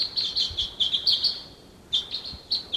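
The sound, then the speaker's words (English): Wild birds chirping near decoys: many short, high, bright calls come in quick clusters, pause briefly midway, then resume in a few more bursts, clear and alone with no talk. “Decoys. There's some other wild birds around.”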